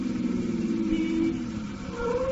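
A car slows down on the way to a raid, its engine a steady, low hum whose pitch sags gradually, then lifts slightly near the end.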